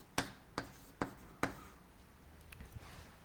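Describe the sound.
Handwriting sounds faintly, with four sharp taps at roughly even intervals followed by softer scratches and light ticks.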